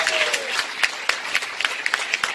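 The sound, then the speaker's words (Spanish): A church audience applauds during a sermon. The clapping is dense and sustained, with sharper individual claps standing out in an irregular rhythm. “Un aplauso y alabanza.”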